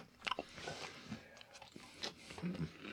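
Crunchy chewing of stale Sour Patch candy, with uneven bites and gritty crunches close and fairly loud across a few seconds.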